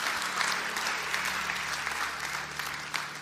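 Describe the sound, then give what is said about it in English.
A church audience applauds to welcome new members during a morning service, with steady, dense clapping that holds at an even level for the full length. “Can we just put our hands together this morning and welcome some people into God's family?”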